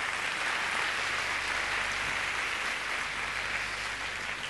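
An audience at a self-confidence seminar applauds, a dense, steady wash of many hands clapping with no break in the sound.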